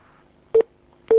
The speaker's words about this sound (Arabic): يبدو ان الخط انقطع.